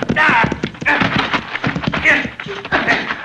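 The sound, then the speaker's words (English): Horse hooves galloping during a horseback chase in a Western drama, a fast, continuous clatter of hoofbeats running under loud, excited voices. “Pull up your horse”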